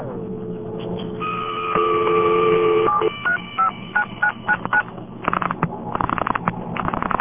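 A telephone number being dialed on an old exchange line: a steady tone first, then a quick run of short beeping tone bursts at changing pitches, ending in rapid buzzy pulsing.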